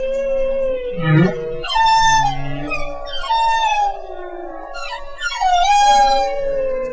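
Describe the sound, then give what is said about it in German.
Humpback whale song: loud, continuous gliding tonal moans and higher wavering, whooping calls, with a brief low grunt early on. “besonders bei einer bestimmten Art, den Buckelwalen. Deren Gesang hört sich ungefähr so an.”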